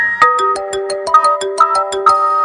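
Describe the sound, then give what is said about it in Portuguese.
A phone ringtone plays as an outgoing call is placed: a loud, bright melody of many quick, evenly spaced tonal notes with no voices. “Vou ligar pro Maromba.”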